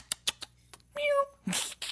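A cat lets out a single short, fairly faint meow amid scattered soft clicks and knocks, followed by a brief noisy rustling burst.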